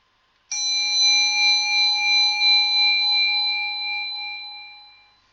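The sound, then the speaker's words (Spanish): A meditation bell is struck once and rings alone as a clear, bright, sustained tone with a gently wavering shimmer, slowly fading away over about five seconds until silence. “A continuación, va a sonar una campanilla de meditación. Debéis seguir su sonido hasta el final, hasta que se haga el vacío.”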